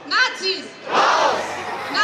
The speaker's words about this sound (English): on the streets as a wall of protesters were met by riot police and water cannon. They're protesting the creation of a new youth wing of the far-right Alternative for Germany party